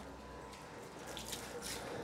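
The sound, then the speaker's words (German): Warm 28-degree water runs steadily from a tap while tortoises are washed, giving a soft, even hiss with slight splashy flutter throughout. “Das ist wunderbar warmes Wasser, 28 Grad, so wie die Schildkröten das lieben. Die werden natürlich nicht nur zu Leopolds Geburtstag gewaschen,”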